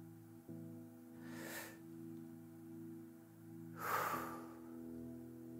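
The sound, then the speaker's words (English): Two slow, deep breaths are taken during a prayer, each a soft, airy hiss lasting about half a second, the second a little louder. A steady, low sustained musical drone plays underneath. “Will you take a breath with me, a deep breath?”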